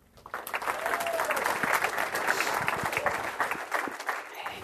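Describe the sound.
An audience applauds to welcome a speaker to the front. The clapping builds quickly from the start, holds at a steady, many-handed level, and thins out near the end.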